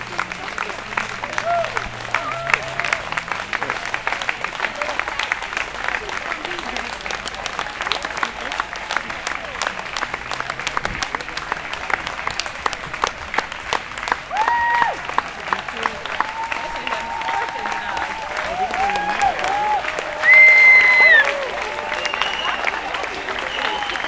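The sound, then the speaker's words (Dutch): Applause from a crowd at a blockade of the A12 motorway protesting fossil subsidies: steady, dense clapping runs throughout, with voices mixed in and a brief louder tone near the end. “Nou, we horen nu applaus.”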